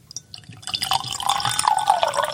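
Liquid pours into a glass in a continuous splashing stream that starts with a few light drips, then builds and grows louder as the glass fills, with no talk over it.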